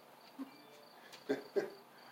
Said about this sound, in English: even the crickets like it.